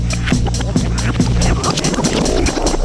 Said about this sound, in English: Let's take a spin through Joe and John's Rolodex.